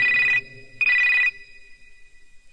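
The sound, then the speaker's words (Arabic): A telephone rings in two loud electronic trilling bursts separated by a short pause, with a third burst just starting at the end. “دق التليفون.”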